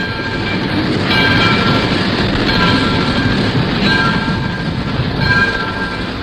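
A train travelling and arriving at a station: a steady rumbling clatter of the carriages, with a horn sounding in several bursts throughout.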